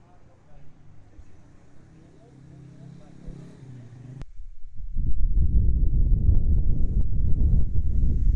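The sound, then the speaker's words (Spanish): Road traffic passes beside a café terrace along a roadside. A low, quiet rumble builds, and midway through it swells into a loud, rushing roar as a vehicle goes by, then keeps up a heavy noise to the end. “Y bueno, pues aquí tranquilamente en una terracita que, como se puede escuchar, pues pasa al lado de la carretera.”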